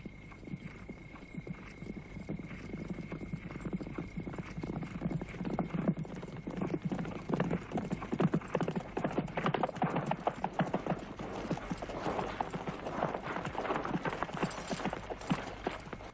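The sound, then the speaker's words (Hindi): Hundreds of horses of an approaching army gallop in a continuous clatter of many hoofbeats, a dense, steady drumming that fills the whole stretch. “बड़ी फौज है, 3,000 तो होंगे, सैकड़ों घोड़े हैं।”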